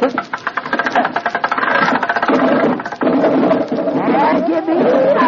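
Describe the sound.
An engine cranked and starting to run gives a loud, rough, rattling mechanical chug with dense rapid pulses, steady and unbroken throughout.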